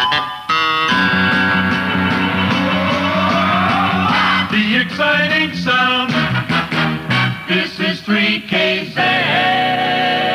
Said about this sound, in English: Okay, Rick, where do we start? Press the button. Well, hey, let's have a jingle.